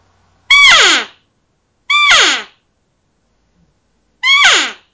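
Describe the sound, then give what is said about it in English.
Hunting call blown harshly and brashly: three loud, raspy, nasal blasts, each about half a second long and sliding downward in pitch, separated by silent gaps. “let me try to make it sound a little harsh and brash right now. This is what you're not looking for.”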